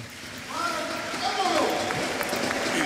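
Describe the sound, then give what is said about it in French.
Light applause rises from the stadium crowd at a Monaco versus Lyon football match during a substitution, a soft continuous wash of clapping and crowd noise heard under a talking voice. “Ouais, légère ovation, on va dire.”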